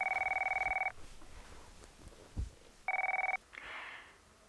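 A telephone rings during a call to someone who does not pick up. A long, steady electronic ring is followed by a quiet gap, then a shorter ring, with soft noise afterward.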